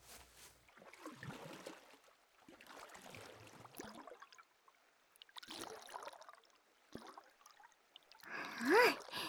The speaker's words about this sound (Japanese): 薬湯はもう準備してあるから、川の水で薄めて、